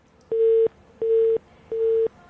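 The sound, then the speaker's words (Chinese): Telephone busy signal on a call to a reporting hotline: three evenly spaced beeps at one steady pitch, each about a third of a second long, with short silent gaps between them. “还有一个廉政举报的电话，这是盲音吧。”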